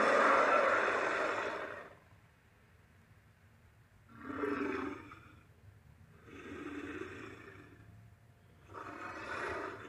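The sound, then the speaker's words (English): Four deep, rough roars from the Ceratosaurus in the video game Primal Carnage, built from lion, tiger and walrus sounds. The first roar is the loudest and longest, and three shorter growling bursts follow with quieter breathy gaps between them. “In Primal Carnage, the Ceratosaurus was voiced by stock sounds of lions, tigers, and walruses.”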